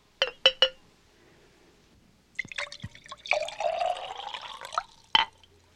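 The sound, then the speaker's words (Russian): Wine is poured into a royal goblet: three sharp glassy clinks come first, then a splashing pour that lasts over a second, ending with one more bright clink. “Возьми эту чашу. Это моя чаша. Слушаюсь, Ваше Величество. А теперь наполни ее вином.”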